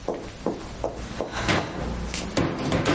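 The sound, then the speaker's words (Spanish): A hand tries to open a closed door, producing a series of dull knocks and rattling clunks as the latch catches, irregular in rhythm, over a steady background hiss. “Se dirige hacia una puerta cerrada, la intenta abrir.”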